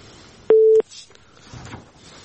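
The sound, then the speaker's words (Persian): A single short, steady mid-pitched electronic tone marks a phone call from a caller in Khost province being cut off. It lasts about a third of a second, starts and stops sharply, and faint line noise follows. “فکر کنم که تماسشان قطع شد.”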